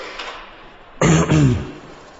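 A solicitor seated at a table clears his throat once: a gruff, rasping sound in two quick bursts, loud against a faint background hiss.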